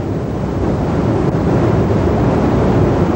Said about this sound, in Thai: ห่างจากบ้านศพกายไปไม่ไกลมีแก่งหินขนาดใหญ่ระเกะระกะขวางอยู่กลางลำน้ำแม่แตงเรียกกันว่าแก่งกึดไม่มีใครล่องแพผ่านจุดนี้ไปได